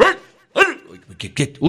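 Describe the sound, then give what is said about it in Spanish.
A dog barks in a few quick, loud, sharp yaps spread over less than two seconds. “Ese perro de Juana sí molesta.”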